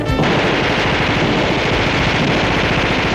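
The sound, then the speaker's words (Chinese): Massed gunfire from many guns shooting at once, a dense, continuous rattling barrage that starts abruptly and stays loud and unbroken for the whole stretch. “外面无数支枪一起开火”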